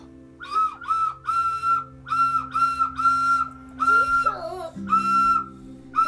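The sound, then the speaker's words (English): An Ocarina of Time replica ocarina is played in many short, breathy whistling notes, mostly on one pitch with a few brief wobbles, separated by small gaps. “That does not sound like an ocarina. Yes, it does. Not. It doesn't. It really doesn't.”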